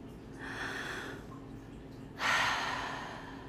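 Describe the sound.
Deep, slow breaths are taken as a calming exercise, two long airy breaths in all, the second louder and harsher than the first, with no talking.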